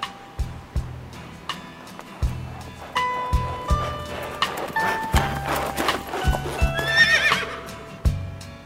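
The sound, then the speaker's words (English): Horse hooves clip-clopping as a large horse-drawn carriage passes, with a horse whinnying; a long, uneven series of sharp hoof strikes, and a shrill, high neigh rises near the end. “Just then, a large carriage passed by.”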